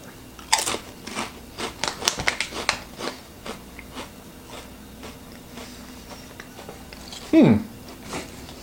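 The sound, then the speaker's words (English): Crunching bites of a Calbee pizza-flavoured potato chip: a rapid cluster of sharp, crackly crunches, followed by quieter chewing and one more loud crunch near the end. “This kind of looks like a Lay's potato chip. 3, 2, 1, the Calbee Pizza potato chip.”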